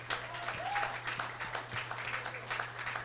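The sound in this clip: An audience applauds a live jazz trio at Tula's with a steady, fairly quiet patter of many hands clapping, over a low constant hum.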